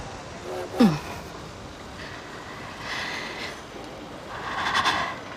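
A train departing from a station: a constant low rumble with broad hissing surges of noise that swell and fade a few times, plus a brief falling tone near the start.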